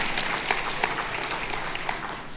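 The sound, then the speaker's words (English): Applause from a church audience: many hands clapping in a steady, dense round at moderate loudness for about two seconds, with a few sharper claps standing out and no talk over it. “Little round of applause for that.”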